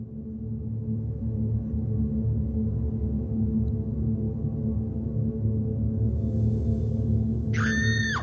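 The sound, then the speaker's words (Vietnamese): A piercing scream tears through a quiet night, heard as one short, shrill, high-pitched cry near the very end after a long stretch of steady low hum. “Tiếng hét lạnh ngắt xé rách màn đêm tĩnh mịch.”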